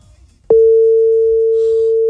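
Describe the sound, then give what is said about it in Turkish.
A WhatsApp call's ringing tone: after a brief quiet moment, a single steady mid-pitched tone starts abruptly and holds loud and unbroken to the end. “Arıyorum seni şu anda WhatsApp'tan.”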